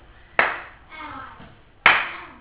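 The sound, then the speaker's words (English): A person claps their hands twice. Each clap is a sharp, bright smack, spaced about one and a half seconds apart, over a quiet background. “Now, when I do this, it's a clap.”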